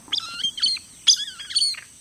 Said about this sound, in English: you may have heard this jumble of sounds coming from open, brushy habitat. What you're hearing is a groove-billed Ani.